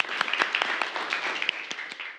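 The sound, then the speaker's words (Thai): Scattered clapping from a school class after a group presentation, individual claps distinct but fairly faint, trailing off at the very end. “ปรบมือ”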